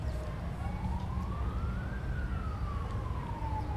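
An ambulance siren wails in one slow sweep, rising in pitch for about two seconds and then falling, over a steady low rumble of traffic.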